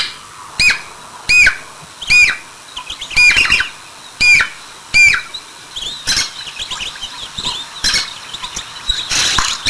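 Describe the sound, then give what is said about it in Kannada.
Male Jacobin cuckoo calling: many shrill, squawking calls repeat in quick bursts at an uneven rhythm, some sharp and clipped, others rougher and more drawn out, loud and alone with no voices. “ಅದೇ ಗಂಡು ಪಕ್ಷಿ ಯಾವ ರೀತಿ ಕೂಗನ್ನ ಹೊರಡಿಸುತ್ತೆ ಅನ್ನೋದನ್ನ ಕೇಳಿಸ್ಕೊಳ್ಳೋಣ.”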